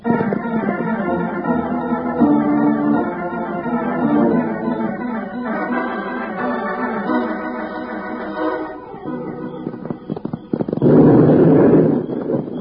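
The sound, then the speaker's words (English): Mining explosion blasting up on a hill at night: dramatic music plays for several seconds, then a single loud, rumbling blast bursts out and rolls on near the end. “Bill, there goes another blast. That makes four. Yeah, Jingles. They're coming from up on that hill ahead of us.”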